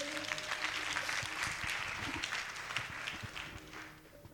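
A church audience applauding during a sermon: dense, sustained clapping that fills the whole stretch and thins slightly toward the end.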